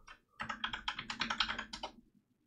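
Quick typing on a computer keyboard, a rapid run of many crisp clicking keystrokes in an even rhythm, then an abrupt stop into near silence, with no voices.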